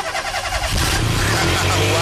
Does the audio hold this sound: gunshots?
no